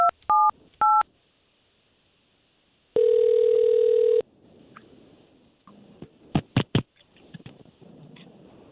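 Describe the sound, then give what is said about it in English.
Telephone keypad tones as a call is placed: three short two-pitch beeps, then a steady held tone, followed by quieter clicking and a few sharp clicks on the line. No one speaks. “we're going to try to call this young lady and see if we can't talk to her first”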